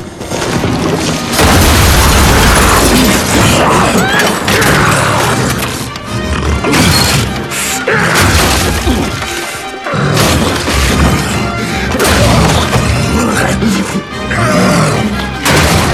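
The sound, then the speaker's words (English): Loud, sustained crashing and booming as an ogre-like monster smashes through a house roof. Dense impacts and splintering smashes keep going with only brief dips in loudness. “Morgarath, now in his ogre form, crashes through the roof after Jared.”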